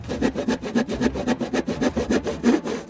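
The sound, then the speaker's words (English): A handsaw cuts through wood in quick, even back-and-forth strokes, many in a steady rhythm with a rasping, mid-pitched scrape and no voices. “Handsaw. Handsaw.”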